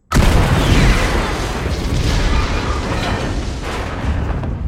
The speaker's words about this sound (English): But just as he does, the Imperials throw a grenade into the shuttle.